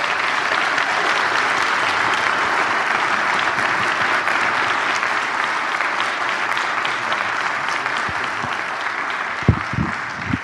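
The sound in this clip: A church audience applauds to welcome a guest speaker to the stage. Dense, steady clapping holds for about ten seconds, with a few louder claps standing out near the end.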